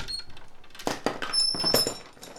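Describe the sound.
A cupboard door opening gives a few hollow knocks and rattles with a faint squeak, quick and moderately loud against a quiet background.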